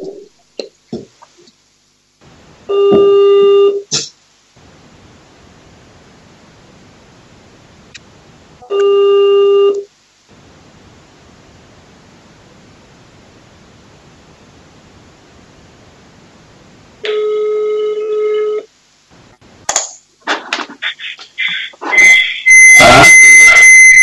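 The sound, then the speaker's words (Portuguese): An unanswered phone call rings as three separate electronic ring tones, each about a second long with steady pitched harmonics, spaced by long quiet gaps and followed by scattered clattering noises. “Não atende, eu liguei, mas não atende, eu vou ligar novamente.”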